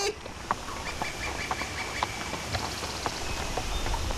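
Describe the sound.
Ridden donkeys clip-clop as they walk along, giving a steady, regular series of sharp hoof knocks about twice a second. Thin chirping tones and a constant background hiss run underneath.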